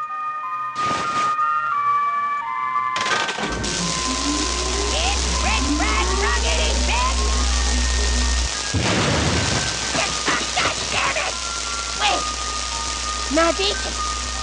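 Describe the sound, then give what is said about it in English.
Cartman being electrocuted as his V-chip activates in an unfinished South Park video game. A loud, low electric buzz drones for several seconds under sweeping cartoonish cries and electronic effects. “so that's Cartman uh, getting electrocuted and his V chip activating again.”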